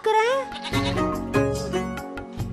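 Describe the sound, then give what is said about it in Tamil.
A young lamb, one of ten brought home from the market, gives a loud, wavering, high-pitched bleat at the start, and people talk afterwards. “நேத்துக்கு சந்தையில இருந்து நானும் 10 குட்டி புடிச்சிட்டு வந்தேன். அதுவும் அம்புட்டு செம்புளி குட்டியாக்கும்.”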